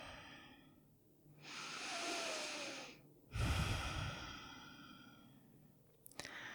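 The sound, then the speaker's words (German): A slow, deep breath drawn in and let out during a guided mindfulness exercise: a long, soft airy inhale followed by a louder, fuller exhale with a low rushing edge, heard alone without talk. “Und atme nochmal tiefer ein und aus.”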